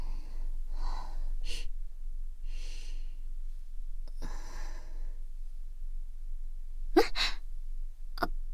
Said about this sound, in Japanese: 最近鼻の調子が悪くてすすっちゃうことが多いの。